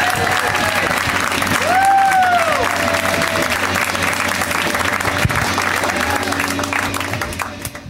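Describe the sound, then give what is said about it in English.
Audience applause for a comedian at a stand-up show: dense, steady clapping with cheering and a rising shouted whoop from the crowd, holding loud throughout before tapering off at the very end. “a ton of extra applause, so get it started even right now. Let's hear it right now.”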